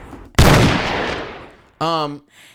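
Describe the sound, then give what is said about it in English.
A single gunshot sound effect from a play gun: one sudden, loud crack whose noisy tail fades over about a second, then a short voiced cry. “I'm going to shoot you. Please don't. This is my gun.”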